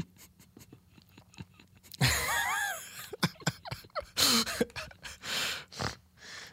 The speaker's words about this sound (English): Oh, you got my snort on. Got the snort on recording.